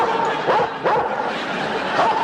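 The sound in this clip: A dog yips and barks in a few short, high bursts over steady, dense background noise.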